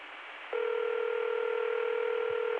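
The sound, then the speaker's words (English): After an extension is dialed, a telephone ringback tone sounds as one steady, buzzing ring about two seconds long, rising out of faint line hiss and stopping cleanly. “I dialed a 3-digit extension. See that? The ring is 2 seconds long.”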